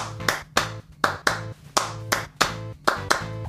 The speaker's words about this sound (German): drei Klatscher und dann zwei Klatscher, die man erst hört